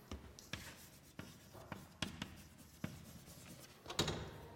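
Writing on a board: faint scratchy strokes and soft taps come in many irregular bursts, with no talk.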